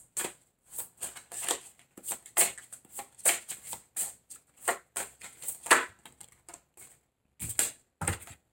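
Tarot cards are shuffled during a Libra reading, with many sharp riffling and slapping card sounds coming in quick, uneven bursts separated by brief pauses.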